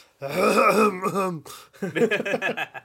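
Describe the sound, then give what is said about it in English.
Throat clearing: a loud, drawn-out voiced rasp, then after a short pause a choppier run of throaty bursts. No talk alongside. “Just clear out the throat.”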